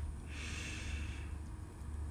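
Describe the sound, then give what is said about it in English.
A slow breath drawn in during a breathwork exercise, a soft airy hiss lasting about a second over a steady low hum, with no talking. “Breathe in,”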